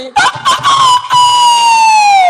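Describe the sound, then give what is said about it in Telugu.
A rooster crows at one o'clock at night: a single loud crow opening with a few choppy syllables, then stretching into a long, strained note whose pitch sags at the end. “అలా బాధపడుతూ బాధపడుతూ ఈ దొంగ కిలాడి పుంజు రాత్రి 1 గంటప్పుడు ఒక దొంగ కోత కోస్తుంది”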